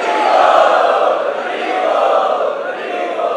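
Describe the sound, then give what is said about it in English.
An audience loudly chants to welcome special guests at an evening preaching gathering, a dense, continuous wall of many voices that swells and dips slightly but stays strong throughout. “They are the special guests this evening. Let us welcome them by loudly chanting.”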